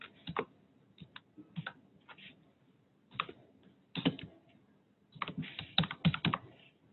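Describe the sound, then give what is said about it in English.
Fingers type a name on a computer keyboard, quiet clicking keystrokes in irregular bursts with short pauses between runs, the densest flurries toward the end. “So I'm going to type in my name,”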